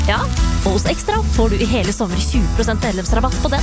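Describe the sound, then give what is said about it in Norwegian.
A big beef burger sizzles on a grill, giving a steady crackling hiss under continuous talk. “Det er lyden av en grill, perfekt big beefy burger.”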